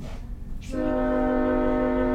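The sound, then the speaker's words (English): A passing train sounds its horn: a loud, sustained chord-like blast starts a moment in and holds steady to the end over a low rumble of rail noise. “Oh, it's a real busy night for the train. Sorry, everybody.”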